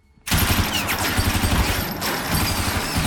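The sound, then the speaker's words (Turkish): Sustained machine gun fire: a dense, continuous stream of rapid shots that begins abruptly after a brief quiet moment and stays loud and unbroken throughout, with no talk. “Duyduğum makineli tüfek sesi mi Smith?”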